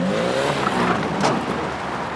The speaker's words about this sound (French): La Lada est partie sur les chapeaux de roue.